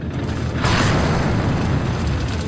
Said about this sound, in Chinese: 我估算好距离，然后我要做的就是发射炮弹。